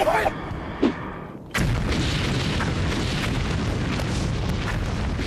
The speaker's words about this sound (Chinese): 准备扔手榴弹！ 快！